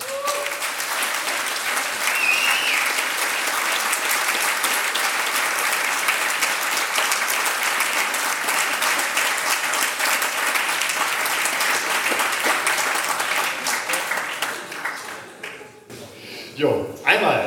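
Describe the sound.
Thunderous applause greets the second-place winners of the Blaue Kugel 2019 award, loud dense clapping sustained for about fifteen seconds before thinning into scattered, uneven claps.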